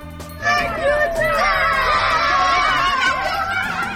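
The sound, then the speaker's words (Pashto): Children shout and squeal while playing in fresh snow after a snowfall in Maidan Wardak province, many high, overlapping voices rising and falling in a lively, continuous clamor. “دا د هغو ماشومانو غږ و چې په دې ولایت کې د واورې ورېدو وروسته په واوره کې لوبې کولې.”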